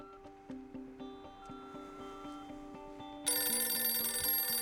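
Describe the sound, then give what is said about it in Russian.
A telephone lying on a table rings with a repeating melodic pattern of clear tones, then a louder, shrill, bright ringing takes over near the end. “Он спешит к телефону и отвечает на звонок.”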